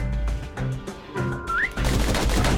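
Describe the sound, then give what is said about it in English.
Pistols firing rapidly in a shooting video game: a series of sharp, loud bursts in quick succession, with a brief rising whistle-like tone partway through. “Those pistols can spit out rounds just as quick as you can pull the trigger.”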